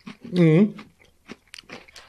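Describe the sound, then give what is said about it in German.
Food being crunched and chewed: a brief voiced sound, then a few faint, dry, crackly bites and chews. “Finde ich ja immer unangenehm, so Leute, die so einen Podcast irgendwie essen, schmatzen, Essgeräusche machen. Boah, ich habe voll Hunger, ich nehme noch einen.”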